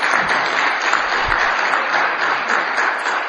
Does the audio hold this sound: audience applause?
yes